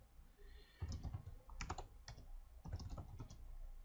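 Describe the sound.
Someone types a mkdir command on a computer keyboard: quick, fairly faint key clicks in several short clusters separated by brief pauses, with no talking.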